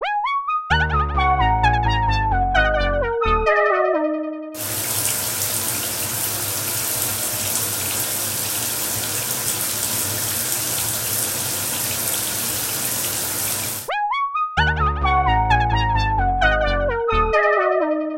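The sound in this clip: A cold shower runs in a steady, even rush of water for about nine seconds, with tonal music before and after it.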